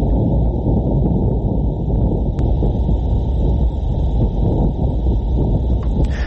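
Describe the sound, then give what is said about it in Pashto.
Martian wind picked up by NASA's InSight lander instruments, heard as a loud, steady, low rumbling roar that continues without break. “ناسا پرون د باد دغه آډیو یا ثبت شوی غږ خپور کړ.”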